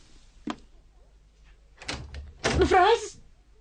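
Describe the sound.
A room door suddenly shuts with a single low thunk, followed by rustling movement and a short burst of vocal sound.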